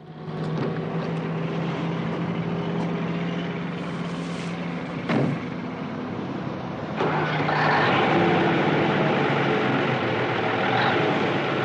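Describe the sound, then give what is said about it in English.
A truck engine pulling out of a stop onto a highway as thick black smoke pours from the exhaust, a steady droning rumble with a low hum, a brief sharp noise midway, then growing louder and rougher for the rest. “Thick black smoke billows from the exhaust behind the cab as he pulls out of the stop and onto the highway.”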